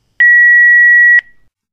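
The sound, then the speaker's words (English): A voicemail beep: one steady electronic tone held for about a second, clean and loud, with no voices around it. “If you're calling to offer a job, leave the message after the beep.”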